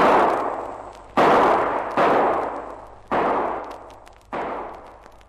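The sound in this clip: Revolver shots fired from behind a rock during a gunfight: five loud, sharp reports at uneven intervals, each followed by a long, fading rumbling tail.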